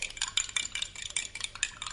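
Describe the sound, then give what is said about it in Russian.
Spoons clink quickly and repeatedly against a cup as sugar is stirred in, making many light, bright metallic taps that stay quiet, with no voices. “А зачем же вы так звените ложками, а? Чтоб сахар лучше размешать.”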